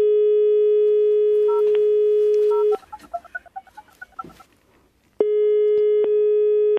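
The ringing tone of an outgoing telephone call: long, steady, clear beeps with a gap between them, where a quick run of short beeping tones sounds.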